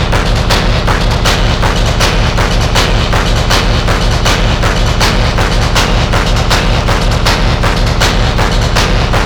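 Gunshots fire in a loud, continuous barrage of rapid, evenly spaced sharp cracks that keep going without a break for the whole stretch, with no talking.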